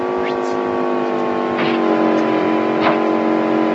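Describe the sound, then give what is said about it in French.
A car's engine drones under a turbo boost in a racing video game, a steady, buzzing whine with strong sustained tones, while a voice talks over it. “Allez, un petit coup de turbo pour doubler ces deux-là.”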